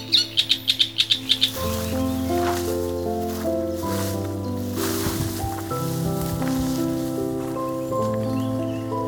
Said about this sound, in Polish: Skryta, choć niezwykle utalentowana. To właśnie łozówka.